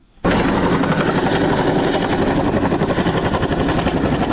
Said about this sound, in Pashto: موږ سنگین ته ځو تر یو کال وقفې وروسته د هلمند په شمال کې د نارامترین ولسوالۍ ته په یوه امریکایي چینوک هلیکوپټر کې